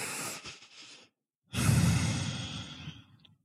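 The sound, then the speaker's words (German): A deep breath in and out during a calming meditation. A soft inhale of about a second is followed by a short pause, then a longer, louder, airy exhale that slowly fades, with no talk. “Mit tief ein- und ausatmen.”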